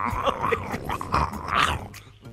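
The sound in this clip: A voice imitating koala bears mating with rough, throaty growls and grunts that waver in pitch, loud and continuous throughout.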